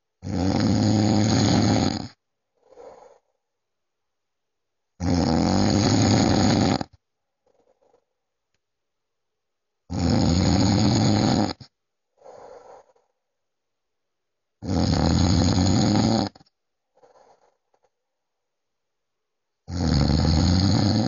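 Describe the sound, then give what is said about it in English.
A man snoring while asleep: five loud, rasping snores roughly every five seconds, each followed by a softer, breathy puff, with quiet pauses between. “I recorded this when my dad was asleep. He snores a lot.”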